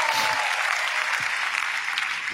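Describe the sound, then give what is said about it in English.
A church audience claps for Jesus during a service, a steady wash of many hands. A brief, louder knock lands at the very end. “Come on, clap for Jesus.”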